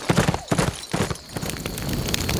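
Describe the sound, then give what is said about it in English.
Horse hooves clip-clop as a rider wheels his horse around and rides off into the darkness toward town: quick, rhythmic hoofbeats at first, blurring into a steadier rumbling wash of noise. “wheeled his horse around and rode off, vanishing in the darkness as he headed for town”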